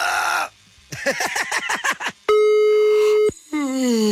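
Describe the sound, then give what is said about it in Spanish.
Telephone line tones sound while a call is redialed after reaching a voicemail service. A steady, loud tone holds for about a second, then a series of gliding tones follows. “Bienvenido al servicio de buzón de voz. Estamos marcando nuevamente, ¿eh?”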